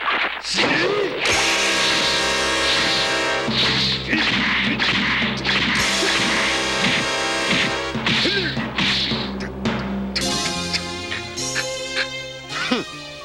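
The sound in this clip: Punches land in a fight as sharp thwacks, with whooshing swings between them. The blows are mixed into loud, dense dramatic music that plays throughout.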